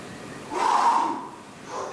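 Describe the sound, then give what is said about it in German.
Breathing in and out during an exercise session: one long, airy breath swells and fades, followed by the start of a second, shorter breath. No talking. “Jetzt einatmen und ausatmen. Nochmal.”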